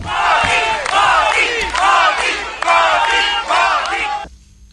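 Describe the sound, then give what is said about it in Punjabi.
An Indian diaspora crowd in Jakarta cheers and chants a loud welcome for Prime Minister Modi. Several rhythmic bursts of massed shouting voices rise and fall in turn, then cut off abruptly near the end. “ਪ੍ਰਵਾਸੀ ਭਾਰਤੀਆਂ ਵੱਲੋਂ ਪ੍ਰਧਾਨ ਮੰਤਰੀ ਦਾ ਜ਼ੋਰਦਾਰ ਸਵਾਗਤ ਕੀਤਾ ਗਿਆ।”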